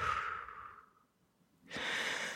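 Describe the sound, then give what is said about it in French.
Breathy exhalations during a self-guided reflexology massage of the foot: a soft, airy exhale fades out, then after a pause another breathy burst follows. “Et n'oubliez pas ensuite de souffler.”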